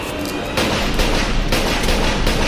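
A loud, sudden blast of gunfire-like noise, from a gun fired point blank at a figure in a dark, flashing-lit scene, breaks in after a quieter stretch. It holds as a harsh, crackling roar with a few sharper bursts inside it.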